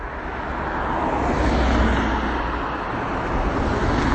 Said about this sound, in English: Okay. I'm used to more leisurely Tasmanian driving.